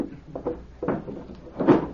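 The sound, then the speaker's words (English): A table drawer is opened with a few uneven wooden knocks and rattles, the last one the loudest. “My wallet they stole is in the table drawer.”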